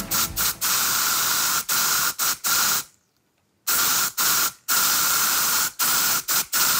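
Deodorant sprays from a spray can in many loud hissing bursts of varying length, with a short silent pause midway before the spraying resumes.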